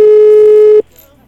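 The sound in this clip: An outgoing telephone call rings back with a single loud, steady electronic tone that holds evenly, then stops abruptly and leaves faint background hiss.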